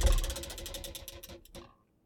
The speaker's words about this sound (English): So, let's spin this wheel. We're getting to it quickly again. Make sure I got my wheels been loose over here. Hold on, let me get a better spin.